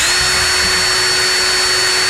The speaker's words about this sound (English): No, that's a drill. Power tool? That's a screw gun.